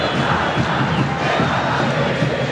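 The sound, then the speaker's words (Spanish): Olimpia football fans chanting in a stadium at a match against the Luque side, a loud, continuous mass of voices sustained without a break. “Señor, es el cántico de la gente de Olimpia, recordando su pasado a la gente de Luque.”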